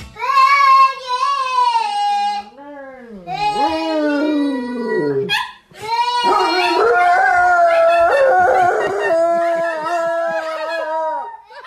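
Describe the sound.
A dog howls along to a little girl singing in a house, its long, loud, wavering howls overlapping and sliding against her sustained sung notes.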